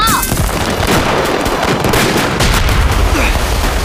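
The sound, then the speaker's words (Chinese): Machine-gun fire rattles through a battle in a dense, continuous stream of rapid, loud shots that keeps going without a pause. “谁能把那机枪给干了？”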